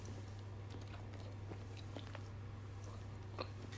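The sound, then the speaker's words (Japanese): Soft, wet chewing of a marinated soft-boiled egg during a solo drink in a business hotel; faint, scattered mouth clicks and squishes sit over a steady low hum, with no talking. “煮卵美味しい煮卵って歯につくよね黄色の部分が”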